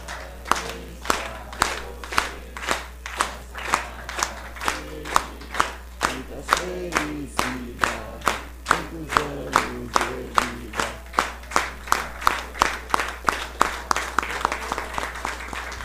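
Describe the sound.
A group sings a birthday song for a colleague at a municipal council session, clapping along in a steady, even rhythm. The many sharp claps run throughout, with the voices rising through the middle.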